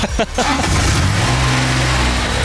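Steady low engine drone from a small go-kart-like ride that tops out around 6 km/h, running continuously with a buzzy, even tone after a brief rougher burst at the start.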